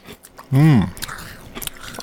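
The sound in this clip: Hosts chewing crunchy crackers and pretzels in a radio studio: a short voiced hum, then a few faint, brittle crunches and mouth clicks as the snack is bitten and chewed.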